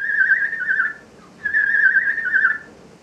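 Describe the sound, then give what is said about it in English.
A young starling whistles a contact whistle to its human caregivers. Two clear, fairly high whistled phrases with a slightly wavering pitch are separated by a short gap; the second is longer than the first. “That's the sound of a young starling who is whistling what is called a contact whistle.”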